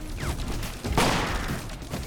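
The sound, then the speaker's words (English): Gunfire erupts in a chaotic action-scene shootout around a van, a loud sharp burst of shots cutting through a dense, noisy mix of fighting. “Carol shoots a Korean on the van roof.”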